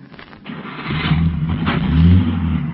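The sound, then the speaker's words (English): A car engine starts and pulls away, its low rumble rising and growing louder as the motor revs and the car drives off. “Here's the car.”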